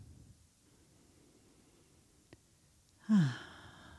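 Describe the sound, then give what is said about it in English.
A single deep breath out during a relaxation exercise, heard as a soft, breathy sigh that rises from near-silence and fades. “And as we take these deep breaths, see if you can invite in a quality of relaxation.”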